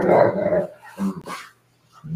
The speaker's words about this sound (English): He's a good dog. Good dog for sure. Wants attention.